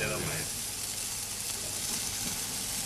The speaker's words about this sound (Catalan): M'agrada com sona a mi la brasa. I deixarem... El pulpo ja està cuinat. El que volem és atemperar-lo i donar-li aquest toc de brasa.